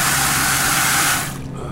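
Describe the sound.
Water gushing from a tap into a clear bucket, a loud, steady hiss that cuts off abruptly just before the end.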